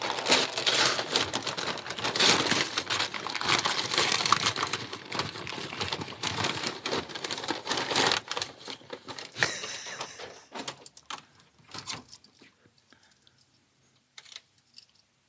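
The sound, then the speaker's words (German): Paper crinkles as a wrapped gift is unwrapped: a dense run of crackling, rustling paper for about eight seconds, then sparser, quieter crinkles that die away into near silence. “Lass uns jetzt eine Stunde das Geschenk auspacken. Ja, ich mache ja schnell.”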